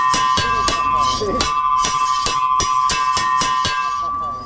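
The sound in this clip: A school recess bell rings at a major school in Lashkar Gah, a rapid, evenly spaced run of loud metallic strikes over a steady high ringing tone that continues throughout.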